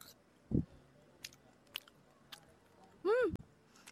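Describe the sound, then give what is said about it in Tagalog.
Faint biting and chewing of grilled tuna with mango salsa and rice, heard as a few soft crunches in near silence, with a short hummed vocal sound near the end. “Pero, let us try kung masarap ba ang tuna with mango and rice. So, eto guys, tikman natin.”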